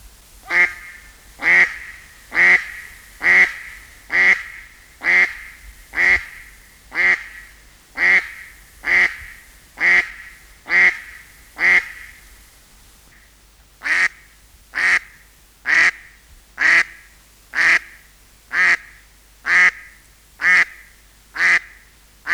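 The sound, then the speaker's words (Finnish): Herring gull calls sound as a long series of evenly spaced, nasal, fairly high notes. A brief pause falls midway before the calls resume at the same steady rhythm. “Harmaa lokki.”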